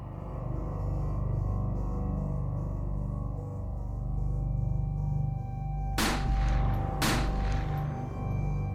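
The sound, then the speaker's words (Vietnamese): Two gunshots in an audio drama, fired repeatedly at nearby zombies: sharp, loud cracks about a second apart over a steady, low, droning background. “Tùy Ý nâng súng lên, nhắm đầu những thây ma gần mình nhất mà nổ súng liên tục”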